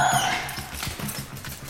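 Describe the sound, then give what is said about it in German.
A female police dog in attack mode, during a training search for a hidden intruder, lets out rapid, agitated barking. Several sharp barks come in quick succession, loud and insistent. “Eine Polizeihündin im Angriffsmodus.”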